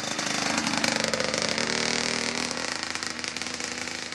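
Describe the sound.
A motorized off-road vehicle engine runs in the woods with a harsh, buzzing motorcycle-like drone that holds steady at a loud level with slight wavering revs.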